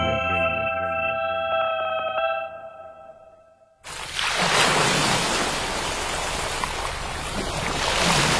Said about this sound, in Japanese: ザバン、ザバン、海が光っている。